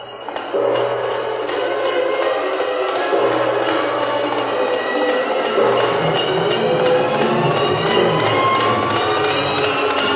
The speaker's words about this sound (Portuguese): quando o grande relógio acabou de dar a última badalada, desfez-se o encanto e tudo voltou a ser o que era antes.